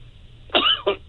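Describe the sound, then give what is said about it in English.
A man coughs twice, a harsh, throaty first cough followed by a shorter second one, fairly faint against a low background hum. “yes, he's coughing.”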